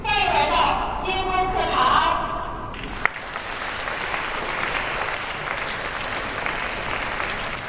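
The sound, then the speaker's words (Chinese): About 180 primary and secondary school students break into warm applause, a dense, sustained wash of clapping that fills the second half after a voice speaks briefly at the start. “来自人大附中航天城学校、芳草地国际学校等25所学校约180位中小学生爆发出热烈的掌声”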